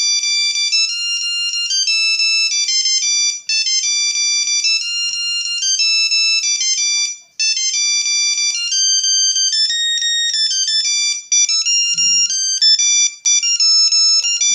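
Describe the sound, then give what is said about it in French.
Ringtone melody from a Nokia 3310 mobile phone: loud, bright synthetic tones in a fast, rhythmic tune broken by a few brief pauses. “c'est déjà le dernier morceau avec le Nokia”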